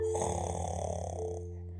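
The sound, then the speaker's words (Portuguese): A grandmother snores in a cozy bed in a sleepy house, letting out one long, rasping, buzzy snore that gradually fades away toward the end. “roncando numa cama aconchegante, numa casa sonolenta, onde todos viviam dormindo.”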